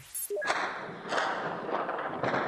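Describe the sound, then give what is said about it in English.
Heavy street fighting in Sana'a, Yemen, as government forces attack the home of a powerful tribal leader: a few loud, heavy thuds and bursts follow one another over a rough, continuous noisy background. “The sound there of heavy fighting returned this morning on the streets of Sana'a after government forces attacked the home of a powerful tribal leader.”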